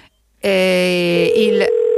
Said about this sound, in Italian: l'ultimo squillo, sentiamo un po'. Niente da fare. Era decisamente fastidioso, devo dire, questo squillo.